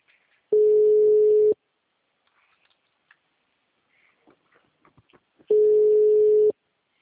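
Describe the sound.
Telephone ringback tone plays while a number is dialled: two long, steady, mid-pitched tones about four seconds apart, with faint rustling in the quiet gap between them.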